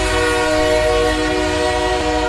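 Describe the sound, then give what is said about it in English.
A passing train sounds its horn, a loud, sustained chord of steady tones held over a deep, continuous rumble from start to finish. “Let's bring the train in.”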